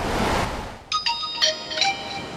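Phone messaging-app notification at the beach: three short, bright, high chiming tones in quick succession, fairly loud and without talk, following a brief rush of noise at the start.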